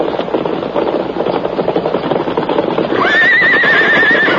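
A riderless horse approaches with a busy rush of hoofbeats, then lets out a loud, wavering whinny near the end.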